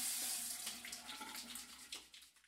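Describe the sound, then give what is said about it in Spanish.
Water runs from a kitchen sink tap while hands are washed under it, a steady bright rushing stream with soft splashing that eases slightly toward the end; no one speaks. “Estoy aquí en la cocina, mijo. Espérenme, espéreme, lavo las manos y ya la saludo bien.”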